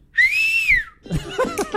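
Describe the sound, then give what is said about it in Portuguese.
A person whistles a single sustained note as a stand-in for a whistle. The clear, high tone holds steady, dips slightly as it ends, and is followed by talking. “Ó, daqui a pouquinho, como eu não tenho um apito aqui agora, eu vou assobiar aqui, ó.”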